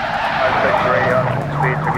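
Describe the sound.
Car tyres screech during a police chase through a crowded intersection, a high, wavering squeal riding over loud, continuous engine and road roar.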